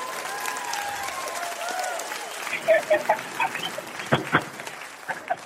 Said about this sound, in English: That was me clapping, by the way.